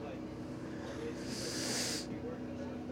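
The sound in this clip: A slow inhalation during a breathing exercise, a single soft, airy hiss lasting about a second, over a steady low background hum.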